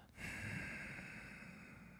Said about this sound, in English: it's like when you're exhaling to put fog on a mirror, or you're trying to like see your breath.